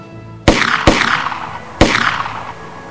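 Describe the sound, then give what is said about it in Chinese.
A pirate fires three pistol shots at a sailing ship. Each is a sharp, loud crack with a trailing decay; the first two come close together and the third follows after a pause. “并且举起手枪朝帆船射击。”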